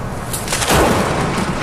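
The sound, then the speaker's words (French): Thunder from lightning strikes rolls out as a sustained, deep booming rumble that swells briefly and then holds steady. “Là, ce que tu entends, c'est des coups de foudre.”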